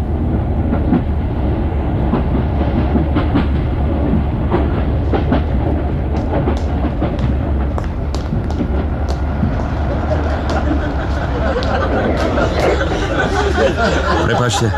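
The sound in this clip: A train running on rails gives a steady rumble with rhythmic clatter throughout, while people talk over the noise.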